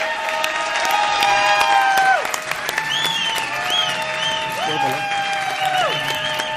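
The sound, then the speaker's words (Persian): Loud audience applause and clapping at a staff appreciation event honouring a colleague, a dense wash of hands with excited shouting and cheering voices on top, dipping briefly near the middle before carrying on strongly. “بچه فقط یکم یواشتر دست بزنید”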